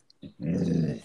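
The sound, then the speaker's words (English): A pet dog, a female, growls: a brief burst comes first, then one sustained, low, rough growl lasting about a second, loud and with no voices over it. “my dog won't stop barking and growling.”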